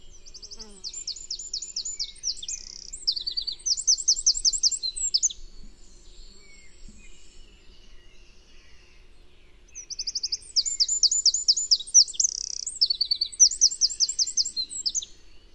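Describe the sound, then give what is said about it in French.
Song of a Eurasian wren: two long, loud, high-pitched phrases of rapid trills and chattering notes, each lasting several seconds, separated by a stretch of near silence. “Pour finir, trois belles phrases de Troglodyte Mignon.”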